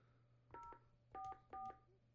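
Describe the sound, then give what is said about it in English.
Three touch-tone beeps as a raffle phone line is dialed, short evenly pitched tones in quick succession with the second and third louder than the first, over a faint low hum. “You gotta dial that one for some reason.”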